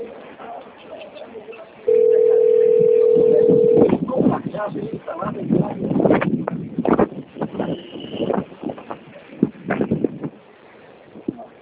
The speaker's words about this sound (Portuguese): Ah, tá chamando, né?